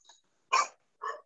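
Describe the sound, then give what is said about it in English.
Dogs barking: three short barks, a faint one followed by two louder ones, with silence in between and no talk. “sorry, my dogs are barking.”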